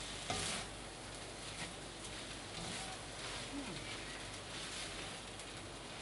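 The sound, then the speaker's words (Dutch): Fried rice with shrimp being stirred in a frying pan gives a steady, faint sizzling hiss with soft scraping and shuffling of the rice running evenly throughout. “dan gaan we roeren en dan ga ik straks proeven.”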